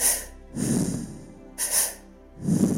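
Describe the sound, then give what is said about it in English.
Mouth breathing for a breathwork exercise: two quick inhales and one exhale through semi-pursed lips. Airy, hissing breaths alternate with softer, lower breaths, and the pattern repeats with no talk. “It's a double inhale with one exhale with semi-pursed lips.”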